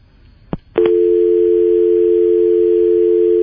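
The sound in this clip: Steady telephone dial tone after a dropped call, a continuous low hum that starts abruptly after two sharp clicks and holds loud and unchanging to the end.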